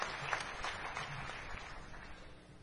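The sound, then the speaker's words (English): An audience applauding volunteers at a year-end community presentation, a soft steady wash of clapping that fades toward the end. “please stand up and take a round of applause”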